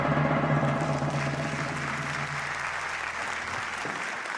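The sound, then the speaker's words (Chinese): Audience applause: many hands clapping in a thick, continuous patter that stays loud and even, with a low hum underneath early on. The clapping thins toward the end. “感谢大家的掌声。”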